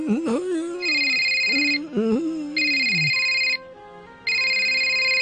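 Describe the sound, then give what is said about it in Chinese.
An electronic telephone ringtone sounds in three bursts of a steady high tone, the first two over a person talking and the last alone. “我听电话先啊。”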